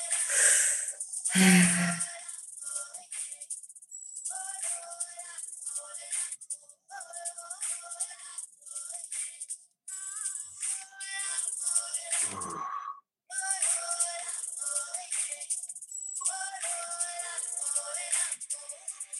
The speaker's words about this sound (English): Commit to your breath. Keep it going.